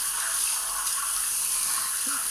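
Shower water sprays in a steady, bright hiss that stays even and unbroken throughout, with no voices.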